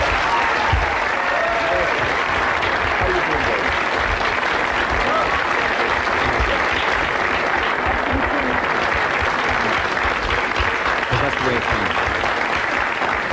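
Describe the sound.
A studio audience applauds a television guest as she comes on, with dense, loud, steady clapping that lasts the whole clip and voices mixed in.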